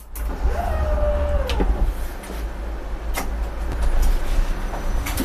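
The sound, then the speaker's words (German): A tram pulls away from its depot with a brief electric motor whine over a steady low rumble, punctuated by a few sharp clicks and clunks. “Die Bahn fährt los. Fast von alleine.”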